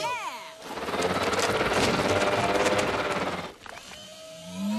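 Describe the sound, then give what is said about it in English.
A really big mixer machine churns giant cookie dough with a loud, rough mechanical roar that swells in and holds for about three seconds before cutting off, with voices heard briefly at the start and again at the end. “We need something really big to mix it. Did somebody call for a really big mixer?”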